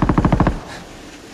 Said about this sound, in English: As the dust spreads, a distant machine gun sparks.